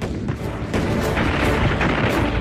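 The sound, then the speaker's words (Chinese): Artillery fire from a concentrated battery barrage on a cluster of bunkers: a dense, continuous roar of rumbling blasts and crackling noise, loud and unbroken throughout with no distinct single shots standing out. “东北野战军炮兵集中火力射击国民党军配水池地堡群，四发命中。”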